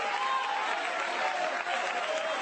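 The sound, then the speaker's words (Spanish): Church audience applauding during a worship service: dense, steady clapping of many hands at an even, moderate level throughout, with faint voices mixed in. “Vamos, vamos, aplaudan al Dios de Dios en esta hora.”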